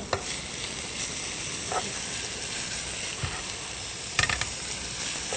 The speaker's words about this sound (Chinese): 所以姜末我们只要放一点点，让它爆香就够了。 对对，只是让这个香菇香起来，这样就好了。